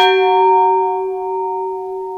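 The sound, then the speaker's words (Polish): A scaled-down replica of a memorial bell rings with one clear metallic strike. Its sustained, pure tone slowly fades and is heard alone. “Tak właśnie brzmi i miał być tenże dzwon prezentowany i zawieszony w Cierlicku, na Żwirkowisku, czyli w miejscu, w którym zginęli Żwirko i Wigura, to jest Śląsk Cieszyński”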